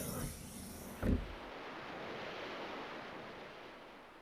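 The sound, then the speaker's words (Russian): Waves wash onto the shore of an icy sea lined with grey stones and rocks, a soft, steady hiss of surf with one brief louder surge early on before settling into an even, faint roar. “Друзья увидели берег ледяного моря с серыми камнями и скалами.”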